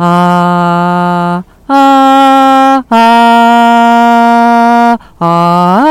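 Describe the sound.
Vocal toning used for healing, performed by a person: four long, loud sustained tones with short breaths between, each held at a steady low pitch, the last sliding upward.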